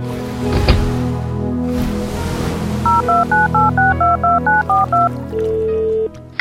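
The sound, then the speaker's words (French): Touch-tone dialing of a telephone number: a quick run of about ten dual-tone beeps over a low background hum, followed by one longer steady tone. “Et je vais téléphoner à un ami pour qu'il te trouve un travail.”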